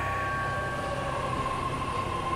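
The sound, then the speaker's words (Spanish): An underground metro train at Plaza del Callao runs with a constant rumbling roar and a sustained high whine, steady from start to end. “Abordo el metro subterráneo de la Plaza del Callao rumbo a mi departamento”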